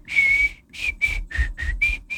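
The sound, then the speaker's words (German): A person whistles a bright, steady tone: one long held note followed by a run of shorter whistled notes with brief gaps between them. No voices are heard. “So, pfeifen wir uns rein in diesen Montag.”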